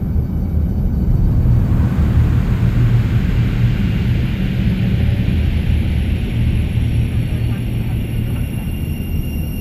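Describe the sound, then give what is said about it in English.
Deep, steady engine roar of a spacecraft taking off, a loud, dense low rumble with broad hiss above it that holds nearly constant for the whole stretch without any break. “Ladies and gentlemen, we've been granted clearance for an immediate takeoff. Please make sure all restraints are fastened”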